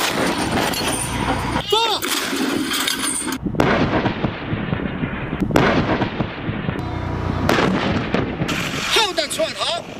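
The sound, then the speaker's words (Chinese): Artillery guns firing during a live-fire assessment at high altitude, with several heavy booming blasts and a dense, rumbling din throughout, and voices heard among the noise. “区某部近日组织开展火炮实弹射击考核”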